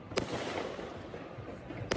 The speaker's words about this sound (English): Both men are standing on this bridge, firing down into this area of parkland where the Hanukkah festival was taking place.